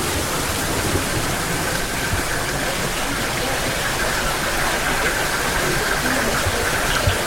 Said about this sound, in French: Nous sommes face à un cristallisoire, des étagères en bois sur lesquelles ruisselle l'eau des sources.